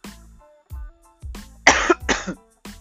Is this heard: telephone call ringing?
no